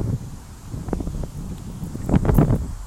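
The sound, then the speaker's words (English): Wind buffets a microphone outdoors as a continuous low rumble with gusty swells that grow stronger toward the end. “Sorry for the wind.”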